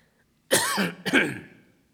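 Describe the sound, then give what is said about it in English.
Two loud, harsh coughs from a man with a lingering cough of several weeks, the first longer and rasping, the second following closely after a short break, alone against silence. “Excuse my cough. I've had it now at least 3 weeks.”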